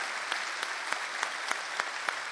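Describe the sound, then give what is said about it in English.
Audience applause fills the Ryman Auditorium in Nashville during a bluegrass concert, a steady wash of dense clapping punctuated by a few sharper, louder claps. “Let's have another nice round of applause for Third Time Out.”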